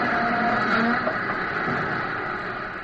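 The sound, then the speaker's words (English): A train grinds and rumbles to a stop in a steady, dense wash of metallic noise with faint squealing tones, the loudness easing slightly toward the end. “Now, as he stops, run down a way so you can see more of the train.”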